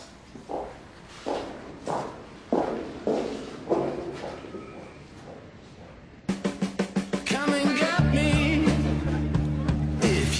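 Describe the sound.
Footsteps of a person walking home: steady, evenly spaced footfalls tap along, then a quicker run of steps follows before a low, continuous drone joins for the final seconds.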